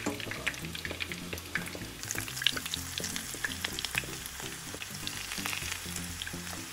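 Taquitos fry in oil with a steady, fairly faint sizzle, scattered with many small crackles and pops, and no voices are heard.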